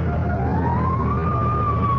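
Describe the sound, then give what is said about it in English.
A fire engine siren wails at a burning sanitarium, a steady tone climbing slowly in pitch over a continuous low engine rumble, with no voices. “Fire engine?”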